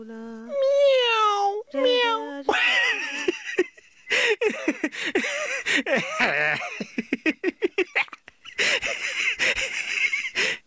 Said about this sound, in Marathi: काय आरडाओरडा चाललाय वर सापडलं का मांजर